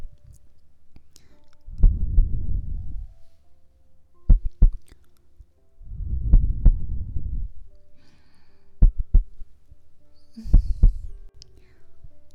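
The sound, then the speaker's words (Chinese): A muffled heartbeat of low, soft thuds in three long swells spaced about four seconds apart, with scattered sharp clicks between them. It is faint and steady, with no talking. “感受姐姐的温度，听着姐姐为你跳动的心跳。”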